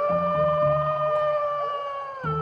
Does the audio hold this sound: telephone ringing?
no